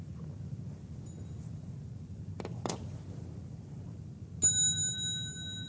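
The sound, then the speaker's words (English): A small bell used to call mindfulness practice at a Buddhist community gathering is struck once clearly, ringing out with a bright, high, sustained tone over a quiet background, with faint clicks earlier. “Learn to practice with the bell. I will let you borrow this small bell.”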